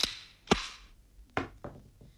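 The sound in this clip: A gun's breech is opened, giving a few sharp, dry mechanical clacks and knocks spaced irregularly over a quiet background.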